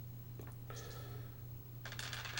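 Dice are thrown and scatter across a garage floor in two faint bursts of quick, small, hard clicks and rattles over a steady low hum.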